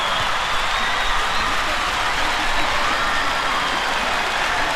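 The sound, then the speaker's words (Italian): Applause from an audience, a dense, even wash of many hands clapping that holds steady at a fairly loud level from start to finish, with no voices standing out. “Un applauso grande, eh?”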